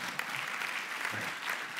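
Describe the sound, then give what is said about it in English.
A church audience clapping during a service, a dense, steady patter of many hands at even loudness throughout. “Can I get an amen? And a clap for Jesus. Come on now.”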